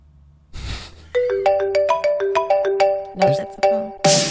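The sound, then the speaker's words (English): A phone ringtone plays a loud, melodic run of many bright, evenly spaced notes that rise and fall in a repeating tune, with no one speaking. “No, that's a phone.”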